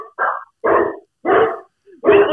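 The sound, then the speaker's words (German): Loud, sharp barking from house dogs on guard: four strong barks with short gaps, plus a brief faint yelp just before the last one. “Aber okay, es sind ja Hunde und die sollen ja auch aufpassen.”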